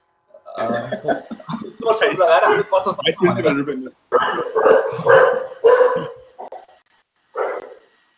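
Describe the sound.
A dog barking in a series of loud, uneven bursts, several quick barks grouped together, then a pause and one last bark.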